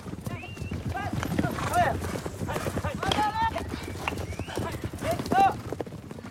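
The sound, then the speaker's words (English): Horses gallop through a polo match, their rapid clip-clop hoofbeats rolling steadily alongside occasional whinnies, with voices heard over the action. “Next, Coco, Etienne, Arthur and the others are playing polo with considerable skill.”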